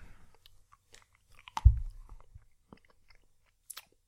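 Someone chews a Cloetta Minimu candy, with faint, soft mouth noises and one louder crunch near the middle, followed by a few small clicks.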